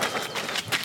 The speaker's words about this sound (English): This is the sound of a wintry morning run.